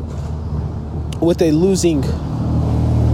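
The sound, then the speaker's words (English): Truck passing by outdoors, a steady low rumble of road traffic that swells slightly toward the end, with a brief voice sounding in the middle. “Sorry guys, I'm outside, so you probably just heard a truck.”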